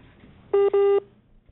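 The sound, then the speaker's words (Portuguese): Telephone tone beeps while a dropped call is redialed: two short steady low-pitched tones in quick succession, the second longer, then quiet. “Já a gente refaz aqui o contato, portanto, né, com o engenheiro Juliano Bueno. Ele que estava conosco na linha, que tivemos um problema na ligação”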